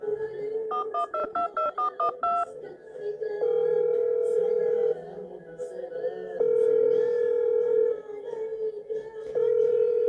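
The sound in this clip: Telephone keypad tones beep in a quick run as a number is dialed, then a steady ringback tone sounds in repeated long bursts while the call rings out unanswered.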